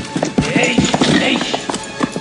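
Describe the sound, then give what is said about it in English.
Horse hooves clip-clopping as horses are ridden through a huge, gloomy cave system, many loud, irregular steps overlapping in quick succession. “They ride their horses through a huge, gloomy cave system.”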